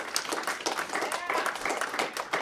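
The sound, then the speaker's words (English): Audience applause for the crew of a live show, a dense, steady patter of many hands clapping that continues throughout, with a voice heard faintly over it. “So, but how about a hand for our fantastic crew here on Saturday's Child?”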